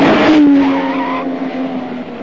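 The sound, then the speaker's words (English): A small pink convertible car speeds along with its tires skidding: a loud, sustained high-pitched squeal over a roaring engine, the squeal holding steady and then easing off toward the end. “a small pink convertible, with another gorilla behind the wheel, charges in his direction from another street.”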